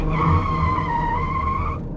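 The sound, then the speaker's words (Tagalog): Tires squeal as a taxi brakes suddenly and skids to a stop at a grassy dump of wrecked cars. The loud, sustained high squeal holds a steady pitch for under two seconds, then cuts off. “Hanggang sa biglang promeno ang taxi sa isang matalahib na tambakan ng sirang kotse.”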